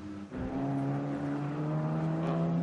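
Steady engine drone of a course vehicle driving along a race course. The low, even harmonic hum starts after a brief dip at the start and holds at a constant pitch and level.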